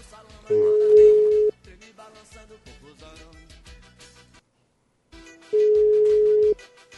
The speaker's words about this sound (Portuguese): Não vai atender? Tomara que atenda. Só chama.